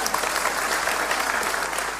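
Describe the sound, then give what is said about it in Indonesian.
Dense applause from a crowd honoring the residents of Trenggalek at a speech, a steady crackle of many hands clapping at even loudness throughout. “Tepuk tangan untuk warga Trenggalek.”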